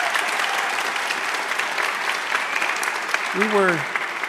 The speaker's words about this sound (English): Could our live audience give her a welcome in this round?